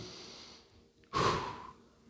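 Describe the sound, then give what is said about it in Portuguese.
A single deep breath drawn in: a loud, noisy rush of air lasting about half a second. It starts abruptly and then tapers off, with no talk over it. “Puxa o ar assim, ó. Não é pecado não, irmão. Puxa o ar aí, respira, vamos lá.”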